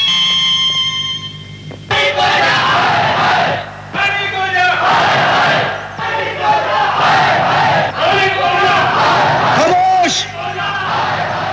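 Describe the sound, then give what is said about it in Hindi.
A crowd of people shouts and yells in uproar, many overlapping voices bellowing at once in a loud, continuous clamor with repeated surges. “इस तरह शोर मचाने से, उधम करने से कुछ नहीं मिलेगा।”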